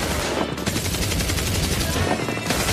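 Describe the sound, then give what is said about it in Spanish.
Machine-gun fire as a comic sound effect, a dense, rapid stream of loud shots that runs without a break across the whole stretch, with no talk over it. “¿Quién ha disparado con la ametralladora?”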